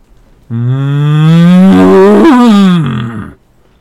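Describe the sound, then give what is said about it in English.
A cow serpent moos beside a dock in the sea, one long, loud, cow-like moo of about three seconds that rises slowly in pitch and drops off at the end, heard alone. “I looked down, and there was my friend, the cow serpent, swimming next to the dock. She nudged my toe and gave me those sad brown eyes.”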